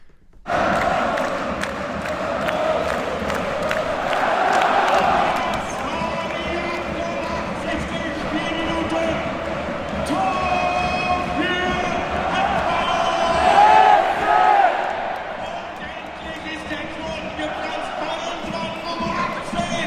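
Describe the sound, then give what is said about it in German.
Football crowd in Berlin's Olympiastadion shortly after a 2:1 goal: a loud, continuous roar of many voices with chanting, swelling briefly toward the end. “Kurz nach dem 2:1 haben sich folgende Szenen im Berliner Olympiastadion abgespielt.”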